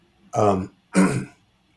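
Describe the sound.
Two short, raspy throat-clearing bursts from a person with a froggy throat, evenly spaced and fairly loud, with silence around them.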